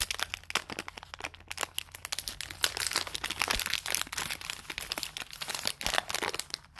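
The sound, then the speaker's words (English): Plastic packaging crinkles as a bag of M&Ms chocolate popcorn is unwrapped, giving many sharp crackles and rustles in an irregular, nearly continuous stream with no talking. “So I'm going to unwrap and try them out.”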